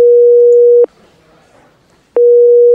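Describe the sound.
Telephone line tones sound while calling a bank about a fraudulent card charge: a loud, steady single-pitch beep, a quiet pause of about a second, then the same beep returning and continuing to the end.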